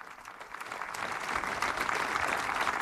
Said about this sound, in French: C'est un cri du pape. Et les gens applaudissent.